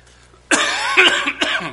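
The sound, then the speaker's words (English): A lingering, residual cough from a man preaching a sermon: a short run of harsh, throaty coughs that breaks abruptly out of quiet and stays loud for about a second. “Excuse me. Still have a little bit of a cough, residual cough left over.”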